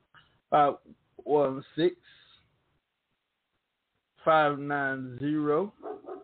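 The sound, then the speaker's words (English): A dog barks in a few short, high yips, then after a pause lets out a longer string of whining, wavering barks. “My dog putting his 2 cents in.”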